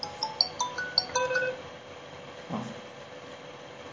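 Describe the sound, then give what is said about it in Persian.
A mobile phone ringtone plays a short melody of bright, high beeping tones through the first second and a half, then fades to faint background noise. “یه لحظه من گوشیم زنگ خورد”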